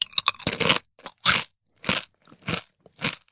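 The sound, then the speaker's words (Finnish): Someone crunches potato chips in a rapid burst of crisp bites, then a series of separate loud crackling chews spaced through the rest of the moment, with no talking. “saanko olla se ensimmäinen ja maistaa? Ole hyvä. Mä aloitan täällä perunasipsillä, koska täällä oli myös bataattia.”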